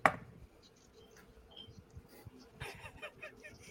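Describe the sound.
Dice roll for a persuasion check in a tabletop role-playing game, giving a faint, scattered clatter of many small clicks and taps, with a brief louder rattle near the end.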